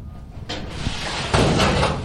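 A storage locker door opening after its rusted lock is undone. A rough scraping rush starts partway in and swells into a louder, sustained grinding slide that carries to the end.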